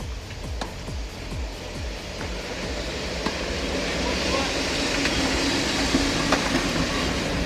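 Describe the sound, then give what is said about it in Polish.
A train arrives beside outdoor tennis courts in Poznań. Its broad, steady rumble swells over several seconds, with a quick run of sharp clacks early on and a few isolated knocks later. “Jeśli w tle słychać odgłos przyjeżdżającego pociągu, jednocześnie stukot tenisowych piłek”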